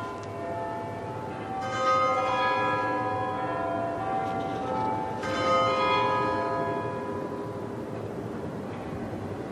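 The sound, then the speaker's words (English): Big Ben's quarter chimes ring from St Stephen's Tower in Westminster: deep, sustained bell tones with two strong strikes whose ringing overlaps and slowly fades over a low, steady background hum. “Let's hear the silence in the ambience around St Stephen's Tower in Westminster. We're waiting for the overlapping sounds that will suggest the passing of time.”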